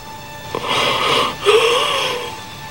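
A dying man's final breath comes out as a long, wheezing rasp with a brief catch partway through and a faint whistling tone in the second half, fairly loud and without speech.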